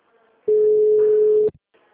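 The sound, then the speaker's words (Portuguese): A telephone ringing tone heard while placing a call, one steady mid-pitched tone lasting about a second, loud and clear against faint background sound. “Sim, vou, tô ligando.”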